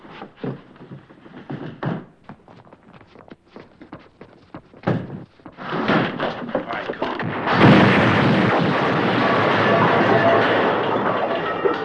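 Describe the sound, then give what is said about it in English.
Bombs exploding: irregular heavy thuds and bangs at first, then a loud, continuous roaring rumble that fills the second half. “Bombs were 1 minute late.”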